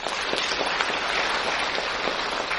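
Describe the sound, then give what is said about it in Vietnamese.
Dense, continuous applause from an audience at a Buddhist talk: many hands clapping at once into a steady hiss-like wash. It stays even in loudness for the whole stretch, with no voice above it. “sự thấy anh em chúng ta vỗ tay như vậy”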